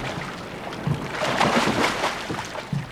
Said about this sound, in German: Das Schiff ankerte vom Haus aus nicht sichtbar im Süden der Insel. Dann bestieg Mr. Sprott mit Des das Beiboot, um an Land zu rudern.